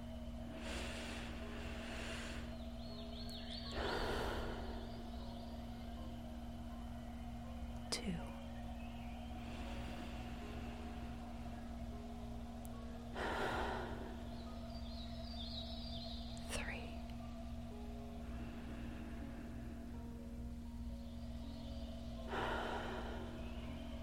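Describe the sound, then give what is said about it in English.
Slow, deep breaths drawn in and let out at an unhurried pace, spaced several seconds apart, each a soft airy swell over a steady low humming drone. “Let's take our breaths. Here's 1.”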